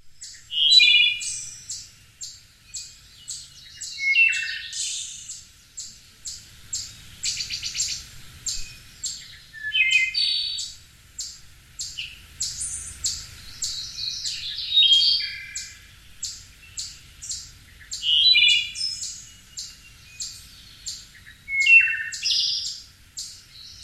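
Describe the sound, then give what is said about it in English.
A wood duck calls, giving high, squealing whistled notes in short bursts that repeat every few seconds, with fainter chirps between them. “Wood duck.”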